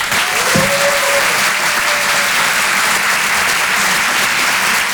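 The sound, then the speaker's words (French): An audience applauds a film's actor-director at a live event. Dense, loud clapping runs steadily throughout, with a brief whistle near the start. “Je vous demande de l'encourager et de faire un maximum de bruit, s'il vous plaît, pour Adrien Montowski.”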